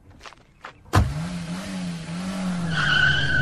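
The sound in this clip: A car bursts away at full throttle during a getaway chase: a sudden loud onset settles into a strained, droning engine note, joined near the end by a high, sustained tire screech.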